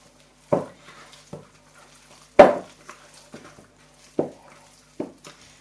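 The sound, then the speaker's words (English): Hands mix seasoned food in a plastic mixing bowl with a non-slip rubber base. Soft squelching thumps and light knocks come at irregular intervals, with quiet gaps between strokes and no voices. “Seasoning in. Time to get the hands in there again and give it all a good mix up.”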